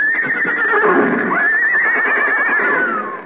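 Horses neighing as a radio drama sound effect: a couple of loud, high whinnies with a shaky, wavering pitch, the second one longer, heard alone without talk.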